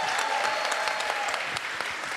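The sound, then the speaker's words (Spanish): A crowd applauds a costume contestant on stage with a dense, steady clatter of clapping that carries evenly through the whole moment. “Ahora sí, ¡un aplauso para Raven!”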